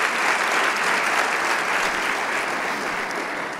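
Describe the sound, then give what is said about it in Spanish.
Congregation applauding during a church service, a loud, full, unbroken roar of many clapping hands that stays even before thinning slightly at the end. “Y le damos un aplauso al Rey de Reyes.”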